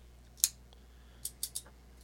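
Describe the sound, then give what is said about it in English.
Scissors snip a small piece off an item. One sharp snip is followed by a quick cluster of lighter snips and a faint final snip, all in near quiet. “I'll cut a little bit off.”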